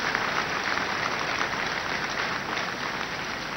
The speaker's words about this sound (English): Put your hands together for Jesus Christ. Put your hands together louder for Jesus Christ.